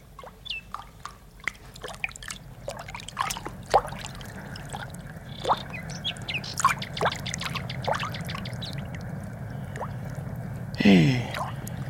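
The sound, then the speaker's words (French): Water flowing through canal locks at night: a faint, steady wash of trickling and pouring water scattered with drips and small splashes, continuing without a break and with no voices. “Il y a plus d'eau que de coutume. Il n'a pourtant pas plu. Mais c'est le bruit des écluses.”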